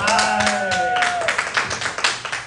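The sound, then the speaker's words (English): A small crowd at a high school football game claps and cheers. A voice calls out at the start, then a patter of scattered, uneven claps follows. “Small but vocal crowd tonight, coach. Yeah, a little smaller than usual, but it's okay.”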